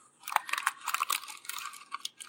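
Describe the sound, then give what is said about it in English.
Silver and gold tissue paper gift wrapping crinkles softly, with quiet, continuous rustles and small crisp crackles throughout. “One of them was wrapped in the silver tissue paper, and the other was wrapped in the gold tissue paper.”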